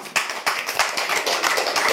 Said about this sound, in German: Verhaltenes Klatschen, okay, ich weiß, wer das Publikum ist.